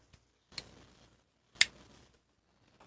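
A box-opening tool slices through heavy packing tape sealing a cardboard box, giving two short, sharp cutting snaps with brief scraping tails, separated by quiet.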